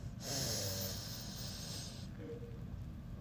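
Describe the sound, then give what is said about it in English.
A deep breath is drawn in, a strong airy rush lasting about two seconds, then it fades to a quieter, softer breath sound, with no voices. “Let's breathe in for 4 counts and go.”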